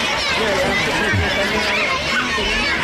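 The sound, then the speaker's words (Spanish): A continuous murmur of children's voices as Queen Letizia greets them and shakes hands at her old public school in Oviedo. Many overlapping voices form an even babble with no clear pauses. “Este murmullo que estábamos escuchando era el momento en el que daba la mano a algunos niños que han querido regalarle un libro, pequeño azul, pequeño rojo, elaborado, ilustrado por ellos mismos.”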